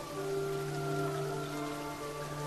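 Rain falling on a couple as it drenches their hair and clothes during a kiss, a steady even hiss throughout with a constant low tonal hum beneath it.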